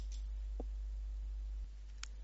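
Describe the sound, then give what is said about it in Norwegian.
Computer mouse clicks, a few faint, short, sharp ticks spaced well apart over an otherwise near-silent background. “Jeg klikker på «Ferdige fagprosedyrer».”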